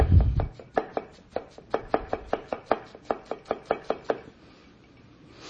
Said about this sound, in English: Then I'm cutting up. This is a red onion. Oh, yellow. Red onion.